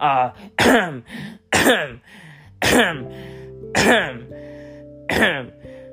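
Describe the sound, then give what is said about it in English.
Throat clearing from someone with something stuck in the throat: several rough, voiced bursts that repeat in a fairly steady rhythm with short gaps between them, moderately loud. “Sorry, I had a little something stuck in my throat.”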